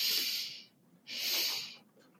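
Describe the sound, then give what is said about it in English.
Breathing during a guided stress-relief sigh exercise: two long, airy, hissing breaths separated by a short pause, soft and steady with no talking. “When you're ready, begin with me. Double inhale.”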